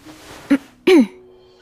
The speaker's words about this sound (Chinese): 滕玉意尴尬地清清嗓子